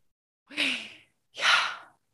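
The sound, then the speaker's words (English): Two slow, airy breath sounds, each about half a second long and fairly loud, separated by a short silence, with no speech around them. “it's kind of like the sound of our breath. So it's like,”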